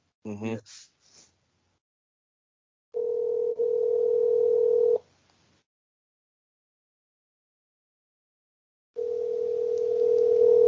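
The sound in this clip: Telephone ringback tone on an outgoing call: after a brief voice at the start, two long, steady, mid-pitched tones sound alone, separated by a few seconds of silence.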